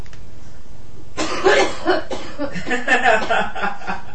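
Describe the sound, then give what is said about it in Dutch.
A person gives several rough, breathy coughs in quick succession on request, clear and fairly loud against a quiet background. “Kun je even hoesten?”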